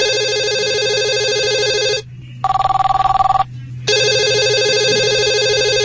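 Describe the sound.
A telephone ringing: loud, steady electronic ring tones stop briefly for a fast, trilling bell-like burst. The steady ringing then returns, with no voices.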